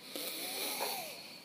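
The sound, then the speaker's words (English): A person takes a slow, deep breath, a breathy rushing sound sustained for over a second, heard alone without speech. “Time to take a breath.”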